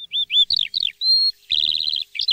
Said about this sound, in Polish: Rano jest cudownie, naprawdę. Jak w lesie, jak na wsi. Śpiew ptaków cisza. Samiczki wysiadują jajeczka, a panowie wyśpiewują, ale jak pięknie.